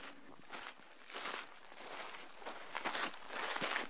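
Footsteps walking along a mountain trail outside Phoenix: many steady, crunching steps in an even rhythm, heard alone with no talk.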